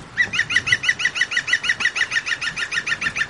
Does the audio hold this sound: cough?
no

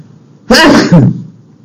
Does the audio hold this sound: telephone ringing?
no

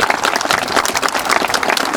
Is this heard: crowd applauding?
yes

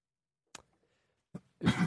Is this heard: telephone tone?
no

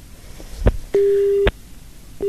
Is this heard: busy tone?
yes

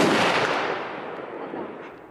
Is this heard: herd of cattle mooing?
no

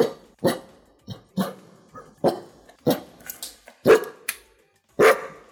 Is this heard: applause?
no

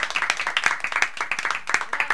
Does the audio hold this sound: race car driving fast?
no

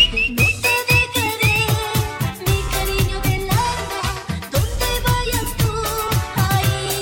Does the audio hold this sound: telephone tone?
no

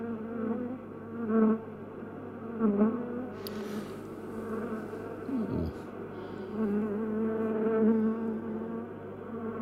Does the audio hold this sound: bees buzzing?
yes

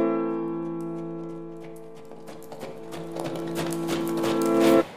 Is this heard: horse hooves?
yes

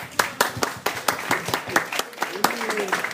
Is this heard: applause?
yes

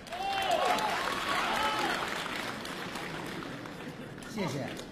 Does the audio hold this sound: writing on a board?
no

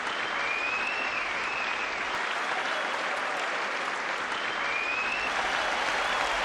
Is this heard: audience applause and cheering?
yes

